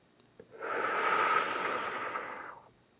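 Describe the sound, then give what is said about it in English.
One slow, deep breath in during a guided relaxation exercise, soft and airy, swelling gently and then fading over about two seconds. The breath is faint and alone, with no talking. “Go ahead and take another nice deep breath in, just like that one.”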